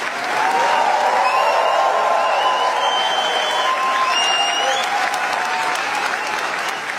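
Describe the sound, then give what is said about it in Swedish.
Standing ovation at the Cannes film festival for actress Léa Seydoux after the premiere of Gentle Monster: sustained, even applause from a large audience that holds steady and eases slightly toward the end. “Ja, så här lät det när skådespelaren Lea Seydoux fick ta emot stående ovationer för filmen Gentle Monster efter att den haft premiär under den pågående filmfestivalen i Cannes.”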